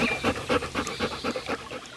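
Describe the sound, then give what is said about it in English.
Panting of a lion lying on a shady rock on the hot savanna to keep cool, many short breaths in a quick, even rhythm, fairly loud and alone. “lions and other predators had to lie on a shady rock and pant to keep cool.”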